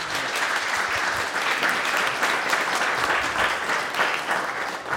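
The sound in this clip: An audience applauds to welcome guests at Tarnanthi in Adelaide, a dense, even wash of clapping that holds steady for about five seconds.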